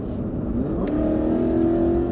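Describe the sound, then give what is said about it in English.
A car accelerates through the streets of Antioch, California, a commuter city, its engine hum rising steadily in pitch over a constant road rumble. “Sonia Deza is following a familiar route to her bank. She's driving through the streets of Antioch, California, a sprawling commuter city about an hour northeast of San Francisco.”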